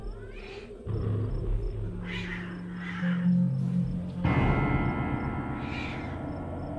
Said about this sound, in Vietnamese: Tiếng con mèo kêu thất thanh mang theo một âm điệu rợn người.